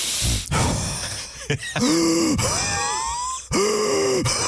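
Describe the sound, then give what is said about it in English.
A voice imitates heavy, laboured breathing: noisy, rasping breaths followed by two drawn-out groaning exhales with a hoarse voiced tone, loud and alone. “Nick Ferrari, heavy breathes.”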